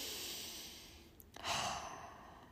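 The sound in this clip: A person taking a deep, slow breath during a calming hand-on-heart exercise: a long, soft, airy inhale that swells into a fuller, steady exhale. The breath is quiet throughout and no one talks.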